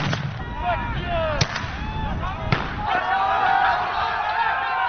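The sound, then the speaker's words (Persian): Two sharp bangs as police fire tear gas and rubber bullets at refugees trying to break through the Macedonia–Greece border fence, over a loud crowd with continuous shouting and shrill whistling cries. “پلیس آنها را با گاز اشک‌آور و گلوله‌های رابری نشانه می‌گیرد.”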